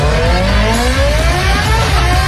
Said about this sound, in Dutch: Ronkende motoren, knallende feesten. De TT is in volle gang.